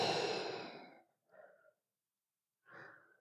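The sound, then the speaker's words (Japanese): A breathing exercise: one long, audible out-breath like a deep sigh, then two shorter, softer breaths separated by silence. “吸って、吐いて”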